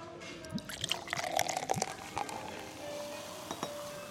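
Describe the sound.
Faint clinks and a soft liquid pour as a Coca-Cola is opened and served with a kebab meal on a metal dish. A few light taps come first, then a thin, steady pouring trickle.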